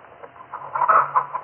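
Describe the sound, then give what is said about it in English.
Chickens cluck in a farmyard with ducks, a busy cluster of short, overlapping clucks that swells in loudness toward the middle, over a faint low hum. “You see my chickens and ducks, Mr. Welby?”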